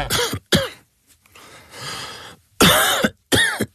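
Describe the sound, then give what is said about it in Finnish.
Harsh, dry coughs in a throat-lozenge advert about a dry cough: four sharp coughs in two close pairs, separated by a pause with faint breathy noise. “älä suotta köhi.”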